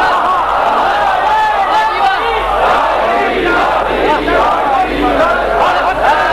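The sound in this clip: A crowd at a religious poetry recital chants the Naara-e-Haidari slogan, a loud, sustained mass of raised voices shouting together with no pause.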